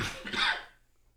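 A single sneeze, one short burst of breathy noise that fades quickly and is fairly faint.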